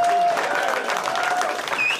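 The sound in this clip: Audience applause after a roast battle at a comedy show: dense, steady clapping from a crowd that stays loud for the whole two seconds, with no talk over it.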